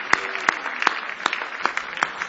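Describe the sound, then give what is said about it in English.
An audience claps its hands in praise: steady, evenly spaced sharp claps, about six of them, ring out over a dense bed of crowd applause. “Let's give the Lord another big hand clap of praise.”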